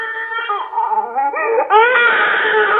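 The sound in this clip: A small child cries and whines while refusing milk, wavering, pitched sobbing that grows louder and slightly higher toward the end.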